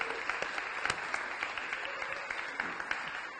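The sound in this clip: A church audience applauding to welcome people: dense, steady clapping with scattered sharper claps throughout, and no voices standing out.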